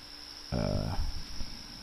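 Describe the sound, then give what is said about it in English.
A cricket chirping indoors, a thin, steady, high-pitched trill that continues unbroken from start to finish, faint under a man's voice that joins partway through. “Boy, that cricket is just, makes me feel like we're camping.”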